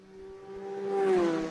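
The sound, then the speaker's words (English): A racing motorcycle engine, a Rob North Trident, roars past as it crosses the finish line of a race. The steady, buzzing engine note swells to a loud peak just past the middle, then eases slightly. “That's the sound of 81 across the line there on the Rob North Trident.”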